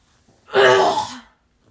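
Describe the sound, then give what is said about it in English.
A person with something caught in their throat clears it while turned away. The sound is a single harsh, fairly loud burst with no talking around it. “sorry you heard that, I turned away, sorry, I'm not gross, I promise, there's just something in my throat.”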